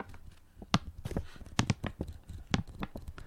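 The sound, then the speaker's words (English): Many sharp, irregular taps and scratchy knocks of a pen against a microphone. The close, dry thumps vary in loudness, with crinkly noise between them and no talk. “That's the sound of my pen on the microphone.”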